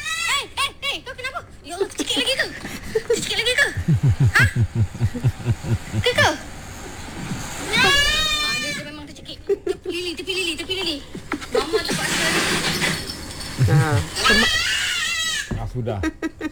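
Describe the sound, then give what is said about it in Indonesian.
A choking goat gives strained, rasping bleats while its owner performs emergency first aid, with people talking over and between the cries throughout. “Ini suara kambing tercekik eh.”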